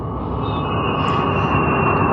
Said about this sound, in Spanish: Como un pequeño pájaro metálico de reluciente estructura, el jet abandona la pista, enfilando hacia el cielo.